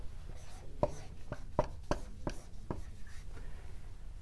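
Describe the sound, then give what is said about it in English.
A word being written down by hand: six sharp, dry strokes tapping and scraping at uneven intervals over a quiet hiss. “And so they have this word, ankyla. I'll write it down here.”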